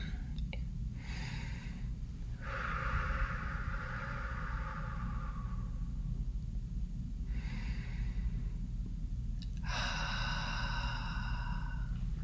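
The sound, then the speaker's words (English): Deep breaths taken together during a guided relaxation: a few slow, long inhales and exhales, each drawn out over several seconds, rising and falling over a steady low hum. “So let's just take a couple nice deep breaths here together.”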